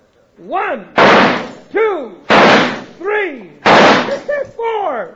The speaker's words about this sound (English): All right, cut the talk and shoot